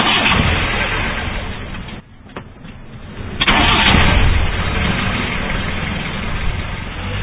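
An old, cheaply bought car with worn seats warming up, its engine running rough and spluttering. A steady loud rumble dips briefly, then surges back louder and keeps chugging unevenly to the end.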